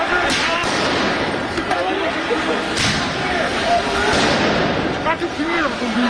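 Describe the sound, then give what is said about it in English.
Police fire tear gas at protesters in central Paris. A few sharp bangs and thuds break through loud, constant crowd noise and voices. “You can hear the sound of police firing tear gas to clear protesters.”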